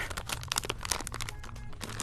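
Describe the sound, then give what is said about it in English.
Strong tape is pulled off in a continuous crackly ripping and crinkling, loud and rough, while unboxing a PowerColor 9070 XT graphics card. “Strongest tape in the world, my goodness. There we go.”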